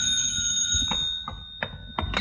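Telephone ringing in an old radio drama, a sustained high metallic ring that cuts off partway, followed by a few soft knocks.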